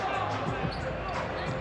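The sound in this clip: A basketball is dribbled on a court during a game, with quick rhythmic bounces under continuous commentary and steady arena background noise.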